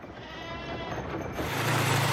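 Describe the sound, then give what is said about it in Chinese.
Black goats bleating as they are let out to roam the hillside: a few rough, wavering calls over a constant noisy background that grows louder toward the end. “羊儿们下午1点准时放风，一进山就四散开来。”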